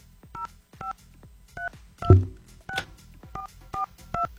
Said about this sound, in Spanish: Vamos a ver si nos contesta. Vamos a marcar.